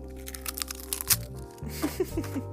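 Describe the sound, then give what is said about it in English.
Eggs being cracked for brownie batter: a sharp shell crack stands out midway, with fainter crackles around it, over a steady low hum. “So, cracking some eggs. This could be some ASMR.”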